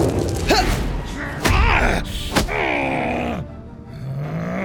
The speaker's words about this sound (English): Good shot! Keep those fireballs coming!